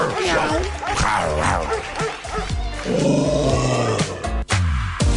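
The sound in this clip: A human voice imitating a dog's barking, a long rapid string of loud, rhythmic woofing bursts.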